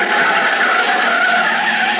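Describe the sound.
An old pre-war car driven hard, its engine a dense, strained roar that holds steady without a break for about two seconds, with no voices over it.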